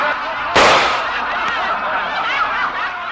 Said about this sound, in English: In the laughter that followed that burlesque line, the sound of a shot could barely be heard.